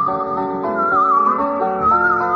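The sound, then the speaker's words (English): A man whistles a wavering tune, the melody steady and clear above low sustained tones throughout. “There is a man whistling now.”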